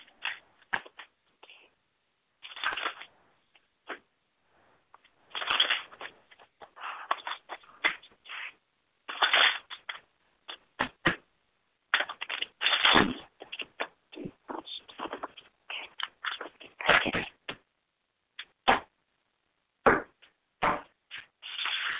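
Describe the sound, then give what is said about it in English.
Cards being shuffled and pulled for a psychic reading on finance and career: many short, crisp riffling bursts and slaps in uneven clusters, with quiet gaps between them and no talking. “Pulling the cards now on finance and career.”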